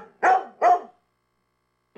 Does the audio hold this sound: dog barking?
yes